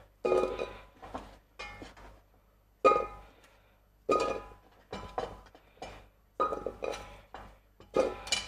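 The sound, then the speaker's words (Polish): Pumpkin pieces are dropped into a cooking pot, producing a series of sharp clunks and clinks, each followed by a brief ringing decay with quiet gaps between them. “Mamy dynię. Wkładamy do garnka.”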